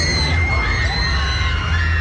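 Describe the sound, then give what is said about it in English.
Screams from roller coaster riders at La Ronde amusement park in Montreal: continuous high shrieks and shouts rise above loud, busy crowd noise. “That is a sure sign of La Ronde. Just the screaming.”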